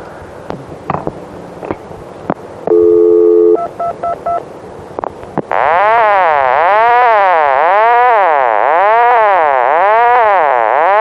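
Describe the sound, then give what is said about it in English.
Touch-tone dialing of a long-distance number: a sustained tone pair and several short beep bursts after a few clicks, then a loud, steady warbling tone that repeats in even cycles for a non-existent prefix or area code. “you'll notice that I'll, I'll touch tone the number.”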